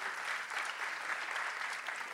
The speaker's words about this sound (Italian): Gli diremo di questo applauso a Gigio.